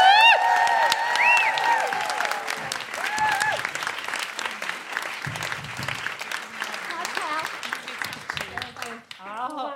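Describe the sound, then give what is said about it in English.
An audience welcoming a comedian guest bursts into loud applause with whoops and cheering, steady clapping carrying on as the cheers thin out toward the end. “Please put your hands together and make general woohooing noises for Pippa Evans.”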